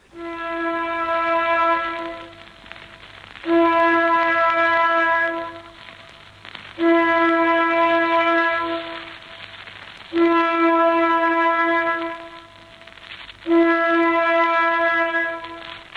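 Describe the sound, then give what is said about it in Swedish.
Air raid warning siren sounding five long, steady, buzzy blasts at a fixed pitch, each about two seconds long and separated by short silent gaps. “Känner du igen den här signalen? Jo då, den övades av och till. Det var alltså flyglarmen.”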